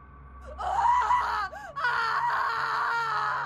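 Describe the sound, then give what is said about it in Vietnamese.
A woman's piercing scream from a room: a loud, high, wavering cry with a brief break partway through before the shriek resumes and holds to the end. “một tiếng hét thất thanh phát ra từ phòng của chị Trầm”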